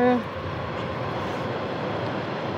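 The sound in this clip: Steady, continuous rumble of a train mixed into a recording as a sound effect, a broad even roar that holds at a constant loudness throughout without clear breaks or individual clacks.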